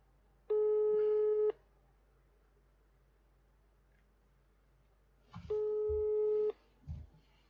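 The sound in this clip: Telephone call tone while waiting for an answer: two steady electronic beeps about a second long each, separated by a long silent pause, with a few faint low bumps after the second.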